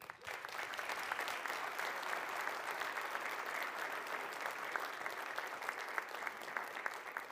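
A church audience at Bethany applauds to welcome Teen Challenge, with fairly quiet, sustained clapping from many hands that stays steady and unbroken for several seconds.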